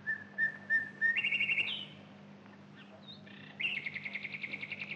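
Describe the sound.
A nightingale sings clear whistled notes, then rapid repeated trills. After a short pause, another run of trilled notes follows, all over a low, steady hum.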